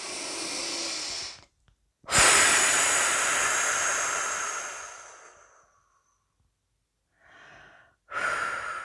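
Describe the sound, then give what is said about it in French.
Slow, airy breaths out during a guided relaxation exercise meant to release tension. A short breath is followed by a long exhale that fades gradually over several seconds, then comes quiet and two briefer breaths near the end. “Et à l'expiration, évacuation des tensions, libération. Avec notre souffle, nous accentuons cette libération.”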